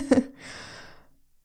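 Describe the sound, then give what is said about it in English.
A person draws a deep breath, starting with a short voiced catch and stretching into a long, soft, airy rush that gradually fades away. “So let's take a deep breath for that.”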